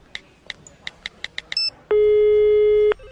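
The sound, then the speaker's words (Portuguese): Telephone keypad dialing tones for a call: seven short, evenly spaced beeps in quick succession, then one long, loud, steady tone. “Vou ligar agora pros caras.”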